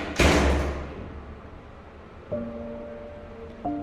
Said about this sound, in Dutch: Telkens denk ik, nu gaat mijn deur open. Na 7 weken zwaait die celdeur inderdaad open